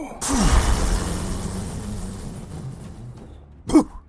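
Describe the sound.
A voice imitates a red dragon breathing fire with an abrupt, forceful breathy rush that fades gradually over about three seconds, followed by one short, sharp vocal burst.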